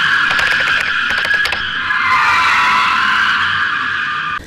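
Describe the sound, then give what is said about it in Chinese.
Tyre squeal from an unlicensed car drifting and burning its tyres at a road intersection: a loud, continuous high-pitched screech holds steady for several seconds over a low engine rumble. “是该无牌轿车在同一路口继续实施道路漂移、烧胎的危险违法行为。”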